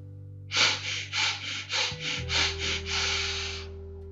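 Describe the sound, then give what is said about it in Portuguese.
During a breathing exercise, a person takes several short sniffing breaths through the nose, then one longer sustained breath, all over a low steady musical drone. “São quatro respirações curtas pelo nariz e uma longa. E a gente repete esse ciclo quatro vezes.”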